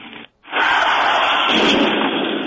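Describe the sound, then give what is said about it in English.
A loud explosion bursts in after a short drop to silence, then roars on as a dense, sustained rumble to the end. “Oh, my God. Is that an explosion?”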